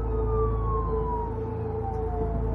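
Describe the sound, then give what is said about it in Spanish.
A police car siren, lights flashing, comes up from behind on a road near Madrid around midday, a steady wailing tone that drifts slowly lower over a constant low rumble. “un coche de policía con las luces y la sirena se está acercando por detrás vuestra”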